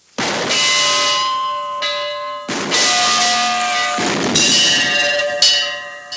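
A large bell in a tower rings with several heavy strikes, each leaving a long, sustained metallic tone that overlaps the next and slowly fades.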